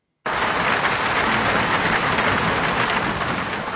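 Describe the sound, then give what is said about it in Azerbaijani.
Heavy rain falling in the city of Baku starts abruptly and continues as a loud, dense, unbroken hiss, steady throughout with no voices. “Dünən axşamdan başlayan güclü yağış Bakının həm kənardakı yaşayış ərazilərində, həm də ilə mərkəzində problemlər yaradıb.”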